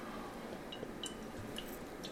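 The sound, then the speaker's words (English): Someone takes a sip of water after a long stretch of talking; soft, faint wet sipping and swallowing sounds come with a few small liquid clicks over quiet background. “Let me just get a drink of water here. I'm trying to just get a drink of water after all that talking.”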